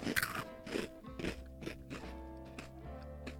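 Crunching on small crunchy snacks like pizza crust: a steady run of crisp bites and chewing crunches, loudest at the start and gradually softer, with no talk.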